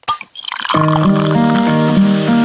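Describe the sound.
Opening and pouring a bottle of Cusqueña beer: a brief burst at the start, then a steady liquid pour with sustained tonal ringing that continues to the end.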